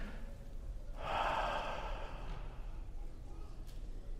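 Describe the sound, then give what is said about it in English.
A person takes one deep breath while kneeling in private prayer, a soft, airy inhale lasting about a second, rising out of a faint, steady background hiss and then fading. “And then I stop and I be still. Take a deep breath.”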